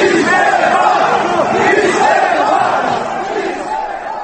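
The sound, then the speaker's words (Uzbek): Loud crowd uproar at a protest in Tahrir Square, Egypt, against President Mubarak: many voices shouting and chanting together in a continuous, roaring mass that barely lets up. “Bugun Tahrir maydonidagi g'alag'ovur Misr prezidenti Muborak uchun haydalish kuyiday yangramoqda.”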